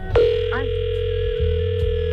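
A telephone dial tone sounds while a call is being placed: a single steady, mid-pitched hum starts abruptly and holds level for about two seconds, over a faint low background buzz.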